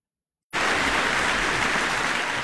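A concert audience at the Lockenhaus Festival applauds, the clapping starting abruptly and holding as a dense, steady, even wash of hands.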